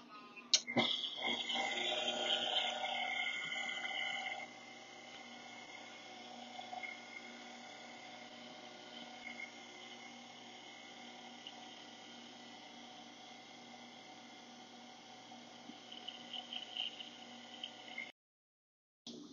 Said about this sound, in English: Now for about a minute, I'm gonna let this mix on low just to get all those dry ingredients incorporated.